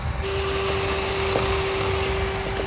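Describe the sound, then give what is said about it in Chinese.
A vacuum cleaner runs with a steady whirring drone and a sustained whine tone above it. A few faint clicks break through, and no one speaks. “你喜欢吸尘器？ 吸尘器一开，我整晚就变成了战士。”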